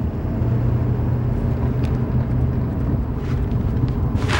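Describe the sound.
A car rolls along with a steady, dense low rumble of engine and road noise heard from inside the vehicle. The tone stays even throughout, with no talk.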